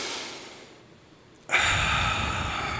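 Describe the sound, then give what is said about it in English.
A deep breath: a faint, quiet intake, then a loud, long, rushing exhale that holds steady to the end. “You two, one, just take a deep breath.”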